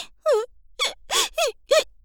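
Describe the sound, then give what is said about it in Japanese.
A woman sobs in five short, wailing cries with a falling pitch, each separated by a brief pause. “ほら、お姉さんのすすり泣く。”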